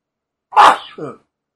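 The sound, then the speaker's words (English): A single violent human sneeze bursts out loud and sharp, then trails into a shorter, weaker second gust before silence. “Yes, I was sneezing. I'm sorry. I sneezed violently.”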